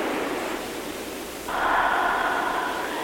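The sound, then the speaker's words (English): Slow, airy breathing during a guided breathing exercise: a steady hiss of moving breath that swells a little partway through and then holds on without a break. “And just begin the breath.”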